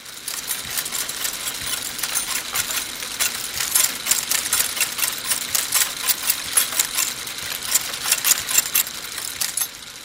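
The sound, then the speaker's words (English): A Linotype typesetting machine at work makes a continuous, busy mechanical clatter of rapid metallic clicks and ticks, steady and moderately loud throughout, with no voices. “It's pretty much better than the Linotype machine in just about every possible way. Except one. It doesn't sound nearly as beautiful.”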